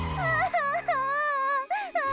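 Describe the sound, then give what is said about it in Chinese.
A child cries in high, wavering wails that break into several short bursts, with a deeper voice briefly heard at the start and end. “小朋友别哭了”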